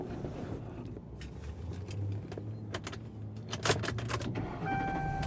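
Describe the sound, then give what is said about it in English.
Inside a car being driven, a mother-in-law's car, a low steady engine and road hum runs under scattered clicks and knocks. A brief, soft electronic tone sounds near the end. “I'm in my mother-in-law's car”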